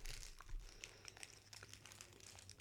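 A candy wrapper crinkles as it is torn open, a faint, continuous crackling rustle with scattered sharper crackles throughout.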